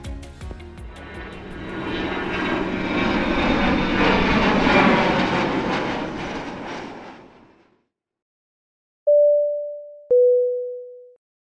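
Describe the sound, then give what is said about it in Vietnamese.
Airplane takeoff sound effect: a jet engine roar swells, holds, and fades to silence. Two clear cabin chime tones follow, the second lower than the first. “Không để các bạn chờ đợi lâu hơn nữa, chúng mình cùng cất cánh ngay thôi.”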